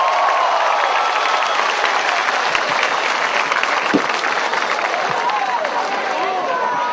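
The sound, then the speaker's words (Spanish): Applause from an audience at a gathering in Honduras: dense, steady clapping that runs loud throughout, with voices heard over it. “Un aplauso fuerte, Honduras.”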